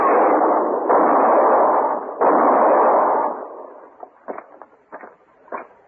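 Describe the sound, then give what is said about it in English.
Gunshots ring out in a radio drama: three loud, sustained blasts in quick succession, followed by several fainter, sharp cracks. “He was going to shoot Mr. Hinkle.”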